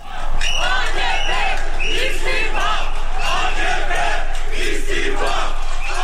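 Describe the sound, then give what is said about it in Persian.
Protesters in Istanbul, Turkey, chant together to demand Erdogan's resignation. Dense, loud shouting voices hold a steady level from start to end after a quick rise. “این صدای معترضانی است که خواستار استعفای رجب طیب اردوغان هستند.”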